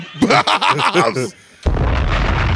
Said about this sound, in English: Bombs!